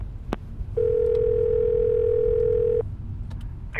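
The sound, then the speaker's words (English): A telephone call being placed: a sharp click, then a steady dial tone held for about two seconds before it cuts off, followed by a brief higher beep. “Call Garrett.”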